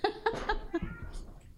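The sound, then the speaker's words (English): A cat meows a few times in short, mid-pitched cries, faint and close together. “And now your cat's barking.”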